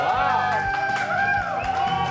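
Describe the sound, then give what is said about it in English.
Studio interns clap and cheer, with whoops and shouts sliding up and down in pitch over a steady bed of applause and crowd chatter. “The old interns used to boo. The new ones clap. That's a big ovation you got in there.”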